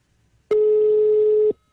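A telephone call rings unanswered: a single steady mid-pitched ringback tone lasts about one second and sounds alone against near silence.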